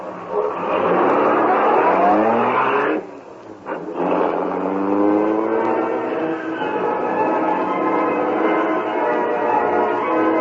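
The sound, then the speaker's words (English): A car engine starting and racing off, its whining tone revving and shifting in pitch. A brief drop comes partway through, then the engine carries on at a steady roar. “His foot pressed the starter, and the Green Hornet raced off.”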